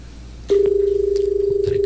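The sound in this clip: A steady, mid-pitched telephone tone comes in after half a second and holds evenly as a call is dialed, over a faint background hum.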